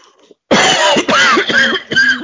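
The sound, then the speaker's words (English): A person clears their throat and coughs up phlegm in a few harsh, rasping bursts with a gravelly, throaty texture, fairly loud and with no talking. “Was that some mucus? Yeah, that was phlegm. Good. That was phlegm, like I had a cold.”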